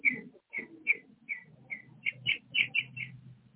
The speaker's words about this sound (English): Oh, we hear the birdies.